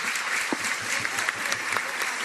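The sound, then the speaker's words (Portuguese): A church audience applauds a seminarian with dense, steady clapping that stays level throughout and is heard alone. “Uma salva de palmas para ele, né?”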